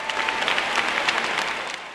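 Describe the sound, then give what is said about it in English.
Thunderous applause and a standing ovation from lay and clergy delegates at a church general convention: a dense, loud, steady wash of many hands clapping, unbroken for two seconds, with no distinct voices. “Lay and clergy delegates to the church's general convention then confirmed that vote with thunderous applause and a standing ovation.”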